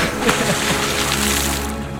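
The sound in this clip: A loud splash as someone cannonballs into a swimming pool: a dense rushing wash of water held for about two seconds, with no talking over it.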